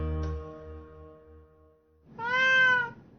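A black cat gives a single drawn-out, tonal meow near the end, following a fading sustained musical tone. The meow is clear and moderately loud, with no voices.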